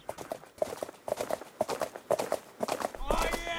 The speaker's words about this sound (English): Oh, yeah. I galloped, they galloped, we galloped all three.